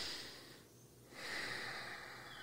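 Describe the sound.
A person draws one breath in: a soft, airy inhale, faint and unaccompanied by talk.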